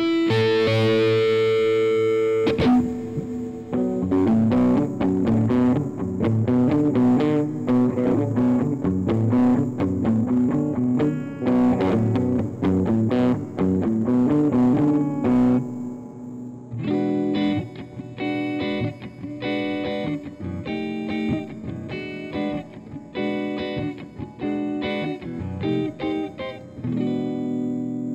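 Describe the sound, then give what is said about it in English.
Hollow body electric guitar played through a Donner Arena 2000 multi-effects pedal, giving a distorted, processed tone. Many notes and chords follow a short opening pause, and the effect character shifts partway through. “All of the sounds you hear on this podcast today are made with a Donner Arena 2000 pedal and a generic hollow body electric guitar.”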